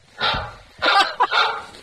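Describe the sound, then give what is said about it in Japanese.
A dog barks a few times in short, sharp bursts, with brief pauses between them and no other clear sound around them. “ワンワン言ってるよ”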